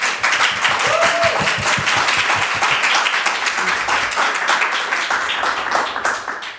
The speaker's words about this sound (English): Please show your appreciation for Anakana Schofield.